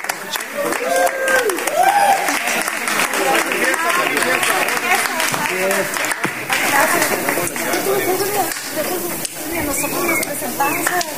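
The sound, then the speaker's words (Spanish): Audience applause at an unplugged Spanish-language rock tribute concert, continuous clapping and cheering that runs for over ten seconds, with people talking and calling out over it throughout. “Para ustedes el aplauso.”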